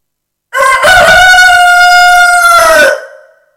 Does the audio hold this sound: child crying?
no